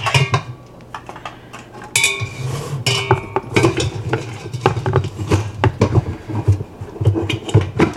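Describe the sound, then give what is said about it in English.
Metal clanks and clinks as the lid is fitted onto a Whirly Pop stovetop popcorn popper. Many sharp, irregular knocks and rattles sound loud and alone, with no talk. “We're gonna put the lid on the Whirly Pop.”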